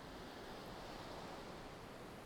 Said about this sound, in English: Enjoy the ever-repeating rhythm of the waves.